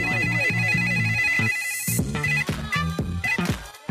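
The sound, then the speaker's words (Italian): A loud, melodic telephone ringtone plays in quick repeating tonal pulses, then briefly dips and resumes in a choppier pattern. “I'm interrupted by a phone ring.”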